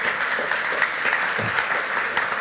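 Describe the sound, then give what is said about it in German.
Sustained applause from an audience at a summer festival gathering: a dense, steady clatter of many hands clapping at an even loudness from start to finish. “Und ja, kann man einen Applaus für geben, klar.”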